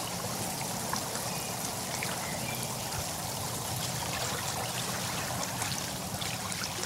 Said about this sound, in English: That sound is the sound of thousands of air bubbles escaping from the kind of rocky ground below the water and coming up and popping on the surface.